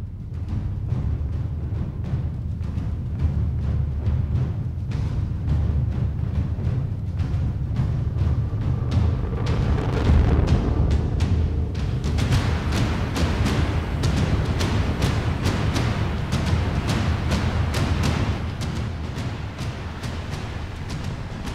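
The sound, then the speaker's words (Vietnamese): Dramatic background music for a battle scene in a fantasy story: a low, sustained rumbling bed under steady pulsing percussive hits that grow denser and brighter after about twelve seconds, with no voices. “Và ngay bây giờ chúng ta sẽ bắt đầu bước vào cuộc chiến tiếp tục. Nổi nhạc lên.”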